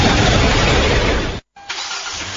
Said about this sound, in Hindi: हमारी पुरानी कार तो बिल्कुल ठीक चल रही है.